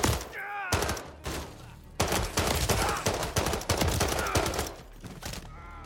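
Rapid gunfire in the video game Call of Duty: Modern Warfare 3, many sharp, loud shots in dense, overlapping bursts that keep going almost without a break.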